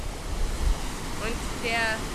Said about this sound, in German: Hier rauschen die Wellen dagegen.